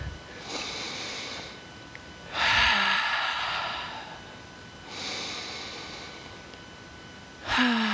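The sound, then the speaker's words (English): Slow, deep breathing during a guided breathing exercise: a few long, airy breaths alternating between louder and softer, each lasting about a second, with no talk. “Taking another deep breath in”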